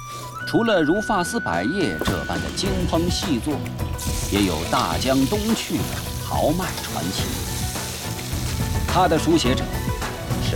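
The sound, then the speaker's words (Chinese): Hunan-style cooking: pre-cooked ingredients are tossed into a wok of hot oil and stir-fried, with a continuous sizzling hiss running through the whole clip. Prominent voices carry on over it throughout. “将原料进行预先成熟处理，再入油锅翻炒，这便是熟炒。”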